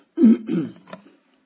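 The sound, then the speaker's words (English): Throat clearing from a man reading aloud through chapter 5 of a text, with something stuck in his throat: a few rough, low, guttural bursts, the first strongest, then fading, heard on its own without talk. “I want to read, excuse me, seems like something stuck in my throat.”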